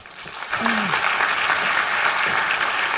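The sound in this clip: Steady, full applause from an audience welcoming a doctor to give a talk, a dense wash of clapping that swells quickly and holds evenly loud throughout.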